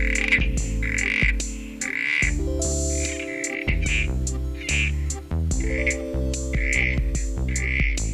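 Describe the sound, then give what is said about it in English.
Short croaking calls of a southern corroboree frog repeat roughly once a second over a steady musical backing, each call a brief burst that stands out above the music. “That was the call of the southern Corroboree frog.”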